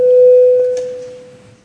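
Bell in the Latvian parliament chamber calling members to vote. A single steady, clean, mid-pitched electronic tone rings out loud at first, then gradually fades over under two seconds.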